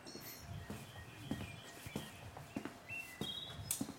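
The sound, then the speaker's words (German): Footsteps walk along the large green inner courtyard of a flat U-shaped building, soft and evenly paced in a steady series of quiet steps. Faint bird chirps come through between them. “Ich laufe jetzt hier seinen Innenhof entlang.”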